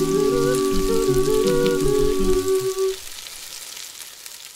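Bacon sizzling: a steady crackling hiss with fine pops. A melodic tone runs over it for the first three seconds, after which the sizzle continues alone and slightly quieter.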